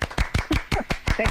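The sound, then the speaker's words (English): Hands clapping in applause: a brisk, steady series of sharp, evenly spaced claps, moderately loud, with no voices. “the Lunar Codex is totally phenomenal and deserves a big round of applause.”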